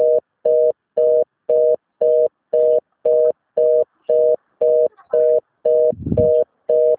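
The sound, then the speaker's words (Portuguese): Telephone busy signal: a steady mid-pitched tone pulsing on and off in an even, rapid rhythm, loud and alone, with a brief low rumble near the end. “Mensagem gratuita de telefone ocupado.”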